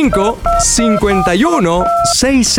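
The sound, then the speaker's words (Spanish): Telephone dialing tones for an incoming call, two short steady dual-pitch beeps mixed in with a loud, melodic voice. “Pues vamos a recibir llamada telefónica al”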